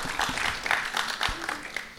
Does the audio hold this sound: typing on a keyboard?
no